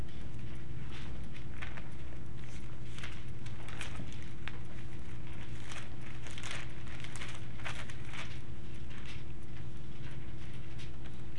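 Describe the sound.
Bible pages turn continuously, many crisp, soft paper rustles and flicks over a steady low hum, with no voices.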